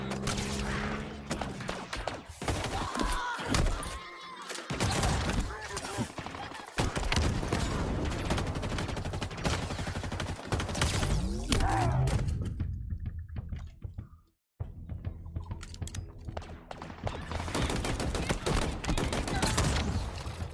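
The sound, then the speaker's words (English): Gunfire in a video game: dense, rapid volleys of shots and bursts keep crackling with little let-up, dropping out briefly before resuming. “They're already shooting at him.”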